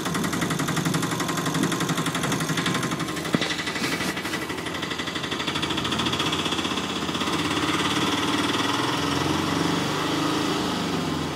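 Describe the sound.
A hired vehicle's engine runs with a loud, steady, buzzing drone that holds throughout, with one brief knock partway through and no talk over it.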